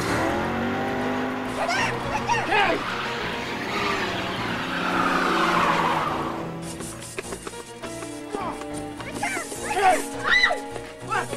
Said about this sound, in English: He does a handbrake turn.